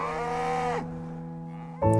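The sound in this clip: Cows in a dairy herd on a farm in Leitrim moo: one long, low, drawn-out bellow, then a second moo begins loudly just before the end.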